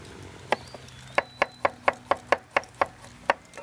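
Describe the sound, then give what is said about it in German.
Knife cutting peeled carrots on a cutting board: a quick, evenly spaced run of sharp, crisp chops, each a short knock, fairly loud and with no talk over them. “Dann fange ich schon mal an zu schneiden.”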